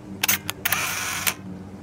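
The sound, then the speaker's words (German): Camera shutter clicks as a small robot camera takes a photo, a few sharp, bright clicks spread over under two seconds with a short sustained mechanical hiss between the later ones; no voices. “406, druckt das Bild aus, das er gerade geschossen hat”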